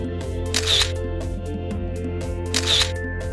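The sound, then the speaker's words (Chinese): Two crisp camera shutter clicks mark photos being taken at the Great Wall of China in a children's cartoon, spaced about two seconds apart over steady soft background music. “快帮我拍张照。”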